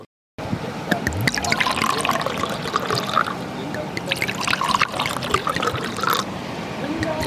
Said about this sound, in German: unser Magic Shoppe, und was vielleicht noch ein bisschen im Hintergrund rauscht, das ist der Main.